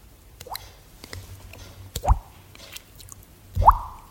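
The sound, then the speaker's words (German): A voice imitates dripping water with three short, hollow mouth plops, each rising quickly in pitch. The first is soft; the last two are louder and spaced well apart over faint background hiss. “so Tropfgeräusch”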